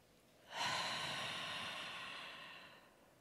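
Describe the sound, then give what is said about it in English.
A single deep, slow exhale makes a soft, breathy rush of air lasting a little over two seconds, alone with no talk. “I'm taking an exhale. So I ask you guys to let's take a deep breath.”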